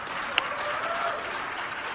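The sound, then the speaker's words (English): Applause from an audience at a religious talk, a brief steady patter of many hands clapping at moderate volume with one sharper clap near the start, no speech over it. “You can clap for that, yes.”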